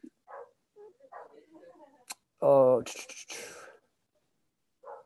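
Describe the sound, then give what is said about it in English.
A dog barks in the background, a few short, sharp barks bunched together midway, with quieter bits of sound before and after. “sorry, barking dog going on here in the background. It's distracting me.”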